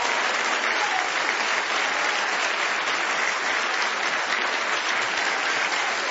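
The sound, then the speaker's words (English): A church audience claps hands in praise, a dense, steady wash of loud applause that holds evenly for the whole stretch without pauses. “Give God a hand clap of praise tonight if you believe.”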